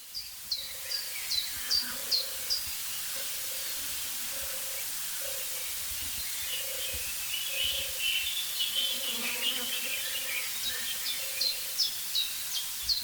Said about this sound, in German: Also diese Turteltaube, die hat es wirklich in sich. Dieser Sound, meine ich.